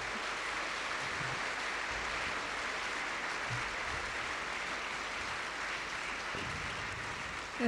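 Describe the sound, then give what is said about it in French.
Audience applause at a talk, a dense, even wash of clapping that holds steady for the whole stretch with no voices above it. “pendant que nous allons applaudir effectivement Swami Bhavananda”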